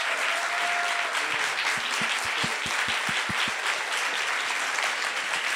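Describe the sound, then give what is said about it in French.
Standing ovation applause from an audience at the close of a live conversation: dense, steady clapping throughout, with a brief run of low thumps partway through. “merci de cette standing ovation euh, impromptue et très agréable.”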